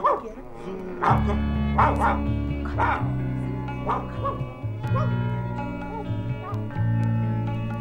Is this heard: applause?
no